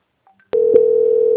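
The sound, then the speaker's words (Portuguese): A telephone line tone plays while a call is transferred, with a couple of faint short beeps first and then a loud, steady single-pitch tone that runs to the end, broken once by a brief click. “Vou transferir a ligação. Um momento,”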